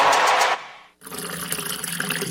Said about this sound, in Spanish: Hoy sí cerré la llave mientras me cepillaba los dientes y utilicé un vaso de agua para evitar desperdiciarla.